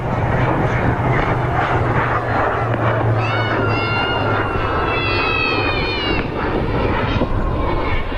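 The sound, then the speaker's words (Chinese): A KJ-500 air force airborne early warning aircraft, built on a Y-9 special-mission platform, taxis onto the runway before takeoff. Its engines give a loud, continuous roar, with whining tones that waver midway. “正在滑上跑道的，马上要起飞的是我们空军的预警指挥机空警五百，空军五百。”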